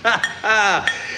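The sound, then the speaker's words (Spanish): Small stemmed glasses clinking as they are set in order: a few sharp clinks with bright ringing tones over a brief stretch. “Hay que ordenar las copitas. Copita acá.”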